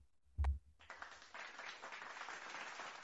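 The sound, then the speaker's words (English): Applause starts just after a single low thump and continues as steady, even clapping for a few seconds, fairly faint and with no voices over it. “was that an applause for me doing the closing or you for doing your button thing?”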